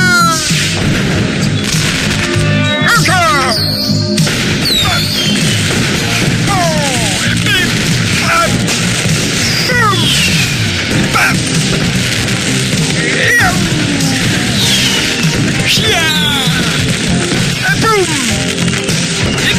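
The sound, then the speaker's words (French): Fireworks from a homemade automatic fireworks launcher going off in a rapid barrage: loud booms and sharp bursts overlap with repeated whistles sweeping downward in pitch, forming a continuous, chaotic racket. “Qu'est-ce que tu fous? Oupla! J'ai bricolé un lanceur de feu d'artifice automatique! Éteins-moi cette satanée machine!”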